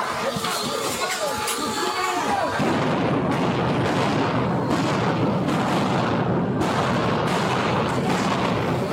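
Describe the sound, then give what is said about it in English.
Flashbang grenades go off in police body-camera footage of officers clearing protesters from a university campus building. Several sharp booms cut through constant crowd noise and shouting. “Those were flashbangs.”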